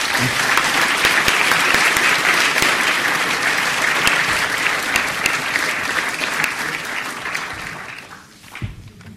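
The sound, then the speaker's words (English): Audience applause welcoming a professor to the podium for an evening talk at the LSE: dense, steady clapping held at an even level, thinning out and tailing off near the end. “So if you could join your hands together and join me in welcoming to the podium Professor Justin Lin.”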